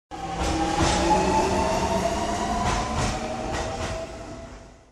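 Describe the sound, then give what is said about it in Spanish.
An urban rail train arriving at a station in Puerto Rico gives a loud, steady rumble of wheels and motors with a few brief clattering bursts, easing slightly toward the end. “llegó a su destino final, la estación del tren urbano.”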